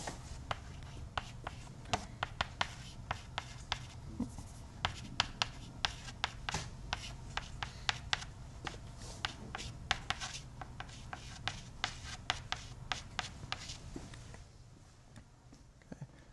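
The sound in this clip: Handwriting while working through cross-product equations: many quick scratchy pen strokes and taps in an irregular rhythm, fairly faint, growing quieter toward the end.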